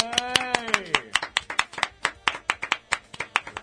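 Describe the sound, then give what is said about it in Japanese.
Many sharp hand claps in quick, uneven succession as a group applauds. A voice calls out briefly at the start, then the claps continue alone at a steady loudness. “今日で、289回目知ってる人が拍手、”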